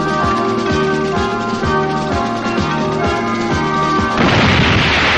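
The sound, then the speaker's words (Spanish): Explosion in a 1979 science-fiction film as a robot's projectile blows a van to scrap, a loud, broad blast bursting in near the end after rhythmic, pulsing music. “Entonces se vuelve hacia ella y dispara otro proyectil que la reduce a chatarra.”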